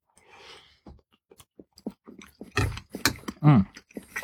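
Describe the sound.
Someone eats noodles with a small dab of pesto, producing faint, irregular wet chewing and clicking mouth sounds that grow somewhat louder toward the end, with no speech.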